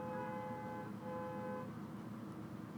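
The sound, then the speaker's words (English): A car horn sounds in traffic outside an apartment window in New York City: a steady, tonal blast of about a second and a half, briefly broken midway, over a low traffic rumble that carries on alone afterward. “That's like the sound. Obviously, it's like traffic outside, I guess.”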